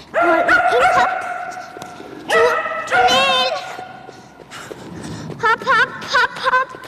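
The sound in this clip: Shetland Sheepdog barking while running an agility course in a training hall, giving many sharp, high-pitched yips and barks in quick bursts, some with a whiny, wavering tone, over continuous background noise.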